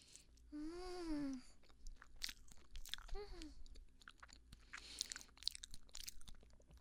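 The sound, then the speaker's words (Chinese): Chewing a bite of durian mille-crepe cake, with moist, crunchy mouth sounds in quick irregular bursts. A drawn-out voiced sigh comes near the start, and a shorter one follows. “榴莲千层啊，学长，哇，这一口慢慢的太舒服了”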